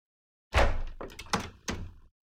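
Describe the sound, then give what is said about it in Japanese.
A door being opened gives a heavy thunk, then a few quicker knocking clunks that fade out. “扉開けてくれるんですね。”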